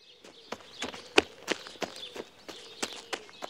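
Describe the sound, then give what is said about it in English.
Quick running footsteps form a steady series of many light, sharp thuds at a brisk, even rhythm, fairly faint, with no voices. “Now I can escape, thought Alice. And she started to run.”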